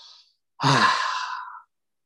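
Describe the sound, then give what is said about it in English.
A single long, deep breath, audibly sighed out, taken during a guided breathing exercise. It swells quickly, holds for about a second, then trails off into silence. “Take a breath.”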